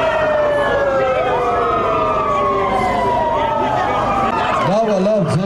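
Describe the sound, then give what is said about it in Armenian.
Police car sirens switched on outside a government building during a protest, several wailing tones overlapping loudly throughout, their pitch sliding up and down, then breaking into a rapid warbling yelp near the end. “Ոստիկանական մեքենաների ազդանշանները միացնելով փորձեցին խլացնել Բագրատ արքեպիսկոպոս Գալստանյանի ձայնը։”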